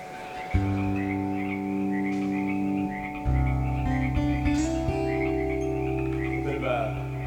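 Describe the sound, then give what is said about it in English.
Local Vancouver frogs croaking in a steady, droning chorus of sustained tones, with overlapping calls that step up and down in pitch and small wavering trills above. “These are local Vancouver frogs. They're passive aggressive.”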